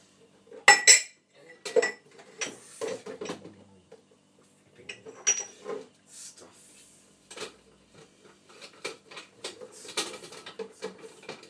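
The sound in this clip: Spoon and cutlery clinking while food is heated on the stove: many sharp metallic clinks and clatters in irregular bursts, a few strikes louder than the rest, separated by brief quiet gaps.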